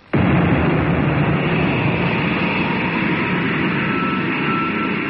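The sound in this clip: A missile launch bursts in with a sudden loud blast, then settles into a sustained, steady rushing roar that holds at nearly constant loudness to the end, with no voices.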